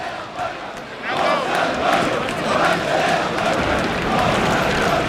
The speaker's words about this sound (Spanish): Ahí podemos oír todos esos sonidos que se generan en el ruedo. Y debe de haber, yo sin exagerar, creo que hay unas 300 personas. Sí, las hay. 300 personas por lo menos en el ruedo.